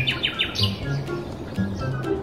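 A flock of long-beaked birds chirping as they fly in together: quick, high, downward-sliding chirps that repeat early on, then scattered calls over a soft, steady background, fairly faint throughout.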